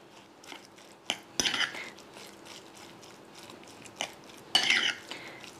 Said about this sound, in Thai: ใส่ลงไปในหมูได้เลยค่ะซีอิ๊วขาวค่ะประมาณ1ช้อนโต๊ะคลุกให้เข้ากันเลยค่ะ